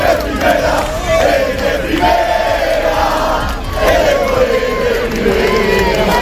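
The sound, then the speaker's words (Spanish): Deportivo football fans celebrate the club's return to Primera División after a 0-2 win over Valladolid, climbing onto the Cuatro Caminos fountain. Loud, sustained crowd chanting and shouting rise and fall in waves throughout. “Sonido en las últimas horas en la Fuente de Cuatro Caminos. De nada valió el vallado preventivo del epicentro de las celebraciones blanquiazules. Los aficionados volvieron a subirse a la fuente para festejar ese 0-2 ante el Valladolid”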